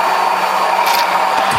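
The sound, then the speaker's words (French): A blender whirs loudly while puréeing tomato, pineapple, apricots, basil and mint leaves, giving a steady, unbroken motor roar for the whole moment. “Alors là, on va mixer. Attention le bruit.”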